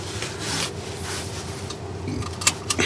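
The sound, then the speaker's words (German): A car seatbelt being fastened: a soft rubbing slide of webbing over a steady low in-car hum, followed by a couple of sharp little clicks at the end. “Oh, ich muss erstmal anschnallen.”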